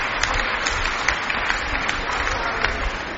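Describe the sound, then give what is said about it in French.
Sustained applause from a crowd at a church gathering, dense and steady clapping at an even level throughout, with occasional sharper claps standing out. “Vous applaudissez.”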